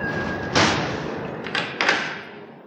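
A window is shut with one solid thud, followed by a couple of softer knocks, over a constant broad rush of city noise.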